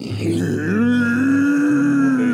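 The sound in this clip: A person's voice imitates a cow mooing in one long, loud, drawn-out call. The voice starts low, slides upward and holds a nasal, droning pitch to the end.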